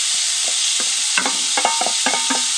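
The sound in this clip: Food sizzling in a frying pan over medium to low heat with leftover bacon bits, a steady hiss carrying many sharp clinks and scrapes of stirring.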